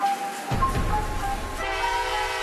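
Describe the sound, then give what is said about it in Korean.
Rail noise at a busy train station: a steady, fairly loud low rumble and rattle of a train, with a sustained horn-like tone through the first half and no talk. “야, 기차역이 엄청 붐비네.”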